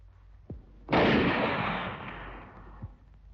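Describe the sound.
A gunshot rings out during a clash between scouts and an enemy force near a small boat. It is a single sharp, loud blast that decays in a long, rushing rumble lasting nearly two seconds.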